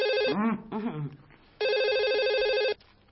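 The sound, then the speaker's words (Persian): A telephone rings at home: two bursts of warbling electronic trill, the first cut short under a voice talking and the second clear and steady for about a second before stopping. “تلفن”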